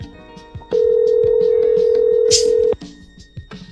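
A hotel room telephone rings once with a loud, steady electronic tone lasting about two seconds. Faint ticking and rustling sounds surround it.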